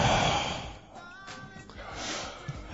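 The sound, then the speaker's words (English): Heavy panting breathed right up close into a microphone: rough, noisy, rasping breaths that swell and ease in a loose rhythm, with a brief snort-like puff near the end. “Let's hear the heavy panting”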